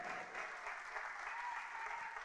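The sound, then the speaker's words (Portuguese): Church audience applauding, a dense, continuous wash of clapping hands that stays steady throughout, fairly faint with no break. “Verso 39, pode aplaudir o Senhor.”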